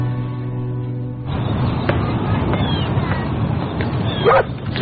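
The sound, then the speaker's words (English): Dog barking and yipping in a few short, sharp calls with a faint whimper, over steady background noise. “Hey, bad boy. Sorry he disturbed you. It's fine. I love dogs.”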